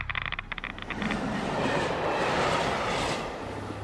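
A train runs through Le Bourget railway station. Rhythmic wheel clatter comes first, then a steady, loud rolling roar that holds for several seconds.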